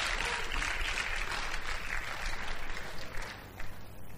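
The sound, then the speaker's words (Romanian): Congregation applause at a church service, congratulating newly baptised members: a faint, continuous wash of clapping that holds evenly for about four seconds. “Vă felicit, aplaudați-i!”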